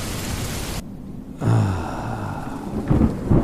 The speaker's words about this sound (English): And then a storm rolls in. And you know what? It's warm out. So we like the storm.